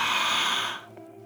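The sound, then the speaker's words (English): A single deep breath drawn in during a guided prayer meditation, a loud, steady, airy rush lasting under a second before it tapers away. “Let's draw another deep breath in.”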